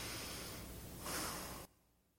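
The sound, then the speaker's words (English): A man takes one long, deep breath, a soft airy rush that swells louder toward its end and then stops abruptly, with no talk over it. “He takes a long, deep breath when he sees us, and he goes,”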